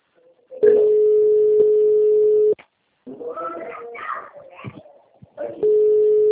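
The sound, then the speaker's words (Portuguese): A telephone calling signal, a steady mid-pitched tone held for about two seconds. A brief bit of talk follows, then the tone sounds again. “Vou atender uma ligação, gente.”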